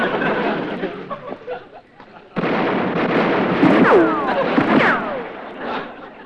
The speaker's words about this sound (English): Hey, watch where you're shooting.